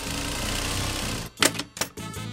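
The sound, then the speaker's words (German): A sewing machine used to tailor made-to-measure dirndls and traditional costumes: a steady, loud whirring hum runs alone, then cuts off and gives way to a couple of sharp mechanical clacks. “sitzt an der Nähmaschine. Sie schneidet Dirndl und Trachten nach Maß.”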